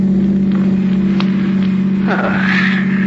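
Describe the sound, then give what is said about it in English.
Steady low hum of a car driving along a coast road in a radio drama, a constant engine drone with a brief whooshing sweep partway through. “And later, as you're driving Neil down the coast toward New York.”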